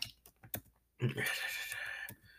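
Quick keystrokes clack on a computer keyboard during a baseball video game session. Several light, irregular clicks are followed by a louder, steadier stretch of sound, then one more sharp click.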